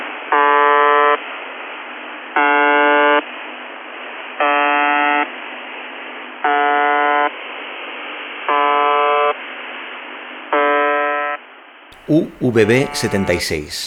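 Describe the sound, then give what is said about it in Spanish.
Shortwave radio buzzer signal: six harsh, harmonic-rich buzzing tones, each about a second long, repeat roughly every two seconds over a steady static hiss, and then a voice starts talking at the end. “UVB-76, también conocida como The Buzzer o el zumbador, porque hace, sí, hace pi, pi, pi, pi cada dos segundos”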